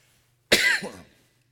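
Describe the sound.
A single harsh cough set off by a tickle in the throat, a short raspy burst that trails into a throaty rattle, alone against near silence.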